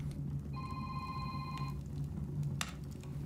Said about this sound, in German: Und mein Telefon, entschuldige mal eben.